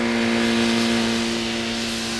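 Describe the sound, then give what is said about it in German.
A motorcycle engine drones steadily as the bike rides away toward town, holding an even, fairly loud hum that eases off slightly toward the end. “Als sie sich jedoch seinem Haus näherten, fuhr Sam gerade auf einem Motorrad in Richtung Stadt davon.”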